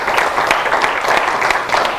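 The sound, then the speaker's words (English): Applause from an audience inside a church, steady dense clapping that fills the whole moment at a loud, even level with no pauses. “Give him a hand of applause in his house.”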